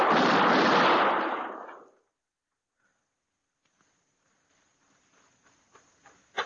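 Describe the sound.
A single loud gunshot blast from a gun fired in an alley, its roar sustained and decaying over about two seconds, then near silence broken by a few faint scattered taps.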